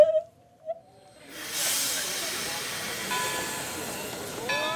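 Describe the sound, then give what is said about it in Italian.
At a train station, an express train readies to depart: after a short quiet stretch with faint tones, a long, loud hiss of released steam or air rises and carries on steadily to the end. “L'espresso per Vladimir, Nizhny Novgorod, Cheboksary, Kazan è in partenza dal binario 8. In carrozza! In carrozza!”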